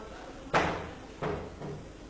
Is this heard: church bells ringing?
no